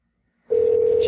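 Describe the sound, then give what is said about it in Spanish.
A telephone dial tone while a prank call is being placed, starting abruptly after a moment of near silence and holding one steady, even pitch to the end. “aquí mismo voy a hacer la llamada”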